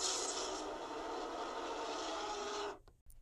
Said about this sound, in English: here's what the fire breath would sound like.